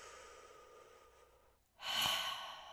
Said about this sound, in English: I begin to breathe, take a few breaths, go.